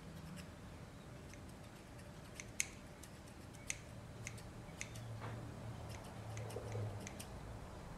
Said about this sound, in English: We don't want any stragglers. And I'm just cutting very little, very conservative.